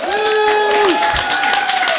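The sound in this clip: An audience applauds to welcome a guest at FinCon with a short, steady burst of clapping that lasts about two seconds.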